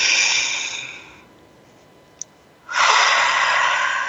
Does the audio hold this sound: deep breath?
yes